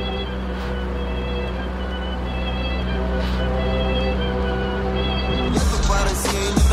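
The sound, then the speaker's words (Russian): A car engine runs with a steady, low droning hum and layered tones. A louder, rough surge of noise breaks in near the end. “Заработало. Дым из выхлопной трубы.”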